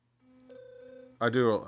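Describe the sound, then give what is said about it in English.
A phone notification sound: a steady electronic tone that steps up in pitch partway through. A brief burst of voice follows it. “I got to turn my notifications off.”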